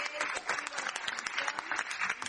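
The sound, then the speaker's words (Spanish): Audience applause: brisk, dense clapping from a crowd, with individual claps standing out sharply against the steady patter throughout. “Un fuerte aplauso para Titi Agüero, que se está viendo y siguiendo la”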